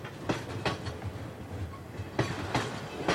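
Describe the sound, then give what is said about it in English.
Diesel night train droning through countryside of rice fields and bamboo forests, a steady low rumble with a few sharp rail clacks bursting out at intervals. “the diesel drone mixes with the rice fields and the forests of bamboo.”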